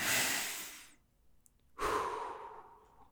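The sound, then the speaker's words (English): A deep breath in and out: two long, airy rushes of breath separated by a short silent pause, the second starting abruptly and fading slowly, fairly loud and heard alone. “It's a good time to take a deep breath, feel your lungs fill up with air, let your mind go blank for a second, and then come right back.”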